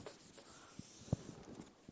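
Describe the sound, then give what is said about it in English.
An eraser wipes writing off a board in faint, soft rubbing swishes, with a few brief scuffing strokes, heard alone. “so I'll erase this.”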